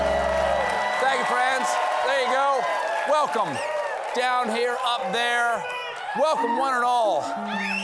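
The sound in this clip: Studio audience at The Late Show cheering and applauding, with whoops and shouts rising above a dense, steady wall of clapping and crowd noise that stays loud throughout.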